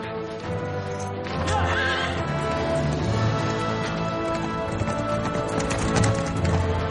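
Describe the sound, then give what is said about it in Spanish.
Horse hooves clip-clopping as a horse-drawn carriage moves through a garden, a steady, even rhythm of hoof strikes that carries on throughout at a moderately loud level. “En el jardín, la pareja se sube a un carro de caballos.”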